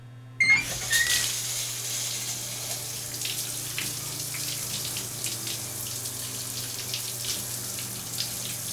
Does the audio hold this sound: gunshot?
no

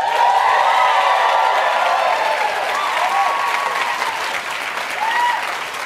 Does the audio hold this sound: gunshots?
no

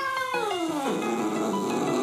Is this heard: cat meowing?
yes

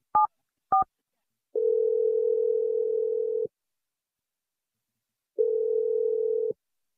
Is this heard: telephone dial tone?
yes

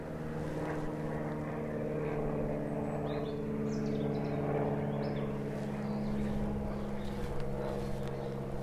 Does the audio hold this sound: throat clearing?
no

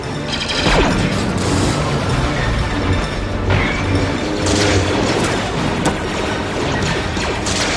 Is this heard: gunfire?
yes

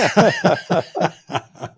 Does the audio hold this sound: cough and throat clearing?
yes

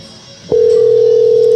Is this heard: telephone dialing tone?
yes

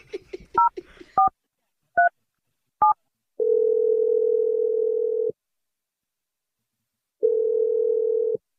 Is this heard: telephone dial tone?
yes

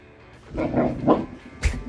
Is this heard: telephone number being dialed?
no

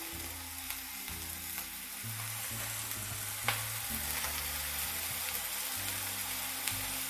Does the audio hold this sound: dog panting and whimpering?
no

